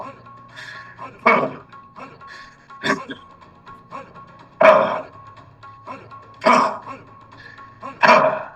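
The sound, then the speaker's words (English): A human voice imitates a growl during a workshop master class, producing several rough, guttural bursts spaced a second or two apart, with quieter breathy rumbling between them. “A little bit of fire, a little bit of fierceness. Maybe it's a growl.”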